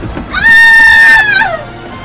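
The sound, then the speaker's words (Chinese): A woman's piercing scream rings out once, a loud, high, sustained cry lasting about a second that drops in pitch as it trails off. “那个女学员发出撕心裂肺的一声尖叫”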